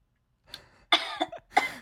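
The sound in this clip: Coughing from someone with watermelon stuck in the throat: a few harsh, raspy coughs in quick bursts, a short one first and then two louder clusters, with no talk.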